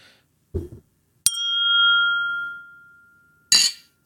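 Heavy-duty glasses clink together in a toast over whiskey, giving one bright strike that rings on with a clear, sustained tone and slowly fades. A soft knock comes before it and a brief rustle after.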